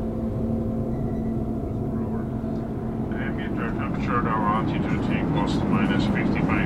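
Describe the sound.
Steady aircraft engine drone from a plane in the airspace over Hungary, a continuous low roar that holds level throughout, with people talking over it in the second half.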